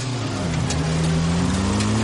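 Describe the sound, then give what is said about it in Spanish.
A motorcycle with sidecar accelerating during a chase, a loud, steady engine drone whose low tone climbs slightly as it pulls forward, with no voices. “El alemán hace un caballito y golpea el sidecar con la rueda delantera. Acelera y circulan en paralelo.”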